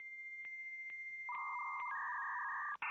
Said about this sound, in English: Ah, the sound of my youth, the dial-up modem.